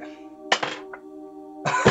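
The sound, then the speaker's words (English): Dice rolled on a table during a tabletop roleplaying game, heard as two short bursts of rattling clatter over a low steady hum. “You rolled four ones. Four ones.”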